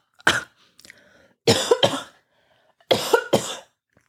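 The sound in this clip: Coughing after inhaling a speck of dust: a few harsh, breathy coughs, mostly in close pairs, loud and sharp against near silence, with a faint throaty rasp between the bursts.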